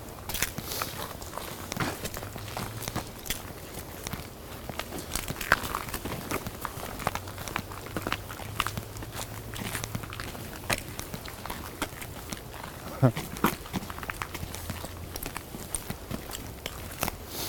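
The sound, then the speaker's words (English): Footsteps on a long walk: many faint, steady steps crunch and tap across the whole stretch over a low background rumble. “This is quite a walk.”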